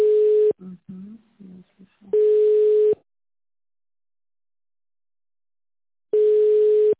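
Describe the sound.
Telephone line tones sound while a call to an accounting department is put through: three long, steady mid-pitched beeps separated by silence, with a brief muffled voice between the first two.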